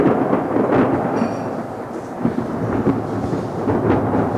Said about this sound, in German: Warten wir das Gewitter ab.